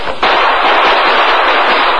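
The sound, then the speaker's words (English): Battle gunfire from an old radio drama, with troopers and others exchanging shots in a fight. The shots merge into a loud, dense, unbroken roar of crackling blasts with no clear gaps. “Then he realized the shots had come from a different direction.”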